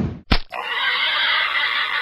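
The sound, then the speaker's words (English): A 500-pound wild boar gives a loud, sustained squealing cry lasting well over a second. Just before it comes a brief, sharp burst of sound. “one 500-pound wild boar, one 9mm round of extreme shock ammunition.”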